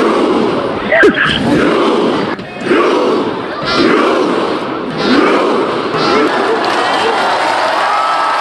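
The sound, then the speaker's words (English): A huge crowd of fans cheers in the streets of Oslo to welcome home the Norway team after the World Cup: a dense, continuous roar with scattered shouts and a few sharper peaks. “100,000 fans flooded the streets of Oslo, Norway's capital, to give their team a warm welcome. It was almost like they'd won the World Cup. They're all out there on the steps, what it sounded like.”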